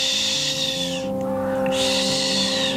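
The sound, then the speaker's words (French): Barn owl screech: a harsh, breathy hiss that runs steadily, drops out briefly in the middle, then resumes, over a constant low drone. “Le cri de la chouette effraie”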